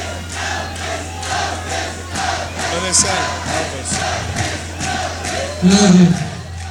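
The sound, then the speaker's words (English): A concert audience in Brussels chants "Elvis" for Elvis Costello, a rhythmic, pulsing roar of many voices over a steady low hum, with a louder swell of shouting near the end. “You can hear them chanting Elvis, Elvis for Elvis Costello on the Brussels side.”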